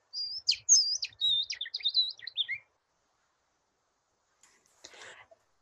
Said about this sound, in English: And it is a bird song, something that is lilting and sweet, rather than the harsh caw of a raven